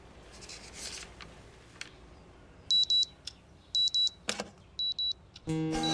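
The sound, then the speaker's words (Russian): An alarm clock ringing in a film scene: three pairs of shrill, high electronic beeps at even intervals over faint background noise. “Виталий накрывает будильник ладонью.”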